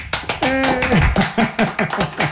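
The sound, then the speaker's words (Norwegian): Brisk handclaps celebrating a finished knitted sweater, a quick run of sharp claps with a voice calling out briefly over them. “For litt applaus.”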